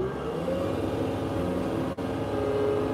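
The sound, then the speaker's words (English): A diesel engine throttling up, a steady droning hum with low harmonics whose pitch edges slightly higher at the start and then holds at a moderate level. “Our high production back here. Throttle up.”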